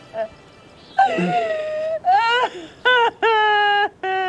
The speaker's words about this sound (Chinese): 娘，别哭了，再哭坏身子。